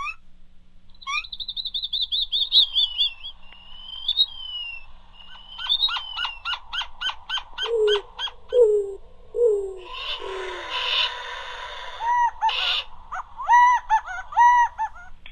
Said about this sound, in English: you can open the book and listen to the birds. This one is the Sonoran Desert.